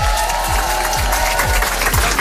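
A crowd applauds at a live stage showcase: dense, continuous clapping that holds at a steady, loud level throughout, with no break in the noise.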